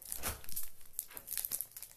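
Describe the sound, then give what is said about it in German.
Crinkling and tearing of a Pokémon trading card pack's wrapper as it is torn open, a few bright rustling bursts of crackly, papery noise across two seconds, with no talk. “Okay, ich mache so lange das erste Pack auf.”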